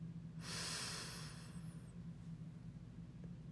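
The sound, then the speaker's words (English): A single deep inhale during a guided breathing exercise, a breathy rushing hiss that swells and then fades over about a second and a half, above a steady low hum. “Inhale deeply.”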